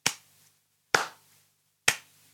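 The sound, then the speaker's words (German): Three evenly spaced hand claps mark the syllables of a three-syllable word, such as Banane, in a children's reading game. The claps are sharp and crisp, each decaying quickly, with silence between them. “Eine etwas schwierigere Aufgabe wäre, wenn ihr nur die Silben klatscht, zum Beispiel dreimal, und das Kind sucht ein Wort mit drei Silben”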